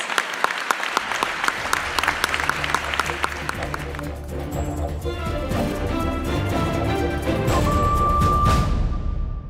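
A crowd applauds the Blind Aid team, starting with a few scattered claps that swell into dense, loud, continuous clapping that holds to the end.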